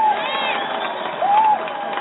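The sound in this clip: Crowd cheering and applause greet a talk-show host as she is introduced, a steady, loud wash of noise with a few raised, wavering voices that swell briefly near the end.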